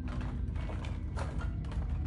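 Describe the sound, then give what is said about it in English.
Drawers yanked open one after another, holding scattered tools and crumpled paper: a few rough, rattling scrapes and clunks of sliding mechanisms over a steady low rumble. “For several tense minutes, he yanked open drawer after drawer, finding only scattered tools and crumpled paper.”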